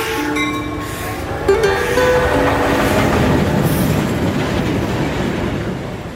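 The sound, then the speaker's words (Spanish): A freight train of wagons arrives carrying food supplies to a Bolivian mining town, with thin wheel squeals over a rolling, rumbling clatter that stays loud and even throughout. “El 23 en la mañana llegó el tren carguero donde siempre traían papa, verdura, arroz, los alimentos para la pulpería. Llegaron los vagones, pero se quedaron en Cancañiri.”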